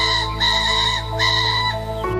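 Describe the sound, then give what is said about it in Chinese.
A breeding-season rooster crows a territorial call, loud, strained and strongly harmonic, held across the whole clip with a brief dip partway through and no voices. “繁殖期公鸡会画一块地，站在高处鸣叫加展翅宣示主权。”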